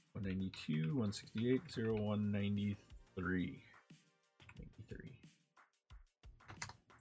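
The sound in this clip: Typing on a computer keyboard while an IP address is entered during network configuration: a man speaks first, then a few light, irregular key clicks follow, faint and uneven in rhythm.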